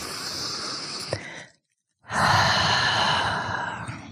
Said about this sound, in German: Atme ein, roll die Schultern nach vorne oben hoch. Und ausatmen über den geöffneten Mund.